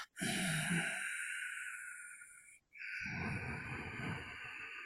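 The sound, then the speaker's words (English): Ujjayi breathing, the slow vibrating breath through a constricted throat used in meditation: two long, steady, hissing breaths with a brief pause between them, heard alone. “what I do when I'm by myself is I use Ujjayi breathing. Because that also, that vibration of”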